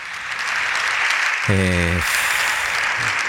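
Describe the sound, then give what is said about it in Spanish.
Standing applause from Partido Popular deputies for Alberto Núñez Feijóo in the Congress of Deputies: dense, steady clapping that fills the whole clip at an even loudness, with a brief voice rising over it midway. “Los diputados en pé, los diputados del Partido Popular aplaudiendo a Alberto Núñez Feijóo”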